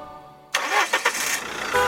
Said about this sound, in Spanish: ¿Qué es? El auto se escuchó.